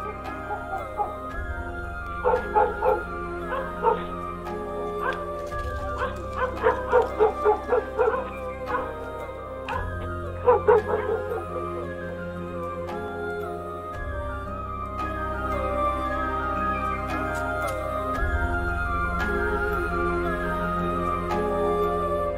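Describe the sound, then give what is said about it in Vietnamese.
Dogs barking in a village, with clusters of sharp yaps coming in bursts at intervals over a sustained, soft musical backdrop. “Thỉnh thoảng, ở trong xóm vang lên tiếng chó cắn ma cắn ca cắn cẩm.”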